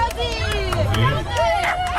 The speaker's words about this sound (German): So, meine Damen und Herren, klingt's beim Dackelrennen, wenn Dackel rennen.